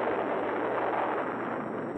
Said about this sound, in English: and high bursts. These colossal blasts have echoed across the great barren stretches of the Southwest. This testing ground in our own backyard.